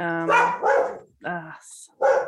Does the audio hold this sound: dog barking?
yes

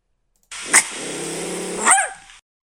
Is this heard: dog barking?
yes

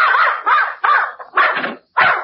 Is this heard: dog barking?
yes

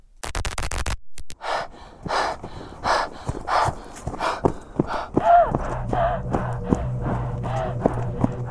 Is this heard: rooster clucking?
no

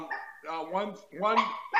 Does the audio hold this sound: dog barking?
yes

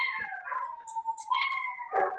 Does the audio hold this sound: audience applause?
no

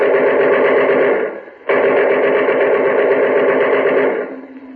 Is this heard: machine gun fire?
yes

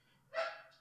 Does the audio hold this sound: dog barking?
yes

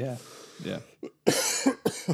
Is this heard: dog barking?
no

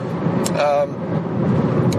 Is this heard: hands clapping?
no

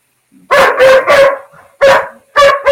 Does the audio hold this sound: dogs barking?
yes

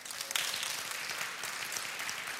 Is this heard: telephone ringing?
no

